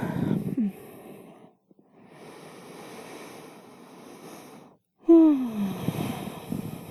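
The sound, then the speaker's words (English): A person yawns, with a brief falling voiced sound first, then a long, soft, breathy stretch, a short silence, and a loud voiced yawn that slides downward in pitch before trailing off into breath. “Deep breath. You're gonna yawn again?”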